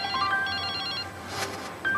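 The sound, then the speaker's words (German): A telephone ringtone signals an incoming call: bright electronic melodic beeps repeat in quick bursts, pause briefly, then start again near the end. “Aber jetzt kommt da dieser Anruf von Wolfgang Niersbach”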